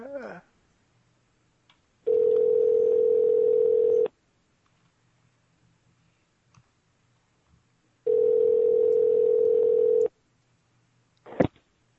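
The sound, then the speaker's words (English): Telephone line tones during an outgoing prank call: two long, steady, mid-pitched tones of about two seconds each, separated by quiet gaps, with a short click near the end. “I'm just going to go right. I'm going to call her right back.”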